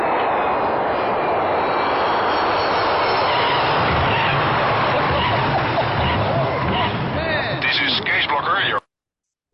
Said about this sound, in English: This is Qantas landing.